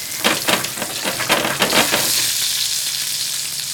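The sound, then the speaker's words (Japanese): Stuffed olives with a raw meat filling shallow-frying in oil in a pan while being rolled around: a loud, dense, continuous sizzle, with a few louder crackling bursts early on before settling into a steady hiss. “割としっかりこう転がしながら、はい揚げ焼きにしていった方がいいですね”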